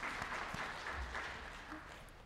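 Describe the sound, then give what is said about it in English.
Faint audience clapping after a speaker's talk, a soft, even patter of many hands that continues throughout and tapers slightly toward the end. “You got to clap again.”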